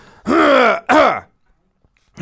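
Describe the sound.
Someone with a frog in the throat clears it twice in two loud, rasping bursts, the second shorter. Silence follows, and another sound starts right at the end.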